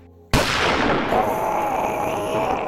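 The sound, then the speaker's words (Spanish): Gunshot of a man shooting himself in a dramatized Halloween horror story: one sudden loud blast after a brief quiet, followed by a long ringing tail that holds for over two seconds with a faint lingering tone. “Francisco está a punto de disparar. Ah, Dios mío. Él quiere disparar hacia Laura, no hacia él mismo. Francisco se dispara a sí mismo.”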